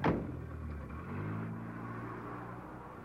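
A car pulls away: a quiet engine rumble follows a soft thump at the start, swells as the car moves off and settles into a low, steady hum.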